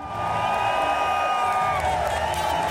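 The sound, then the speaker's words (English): A crowd waits for a Formula One opening ceremony on the Las Vegas Strip. Many voices blend into a continuous, loud wash, with scattered shouts rising above the steady roar. “This is the sound of the crowd waiting for the glitzy opening ceremony.”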